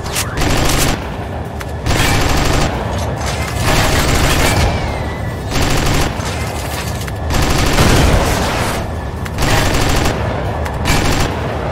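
Machine gun fire rattles in a video game from a laser FT machine gun, loud rapid bursts repeating in several long volleys separated by brief pauses.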